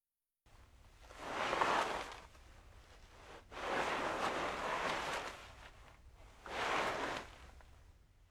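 Something dragged along the ground with a zuru zuru sound: three long, faint, rough scraping swells of noise, each rising and fading, separated by short lulls.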